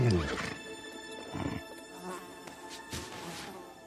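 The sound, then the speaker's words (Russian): Two black horses in harness give faint neighing and breathy whinnying calls, a few soft cries at low level with a faint rustle behind them. “Перед ним стоят два вороных коня в красивых сбруях.”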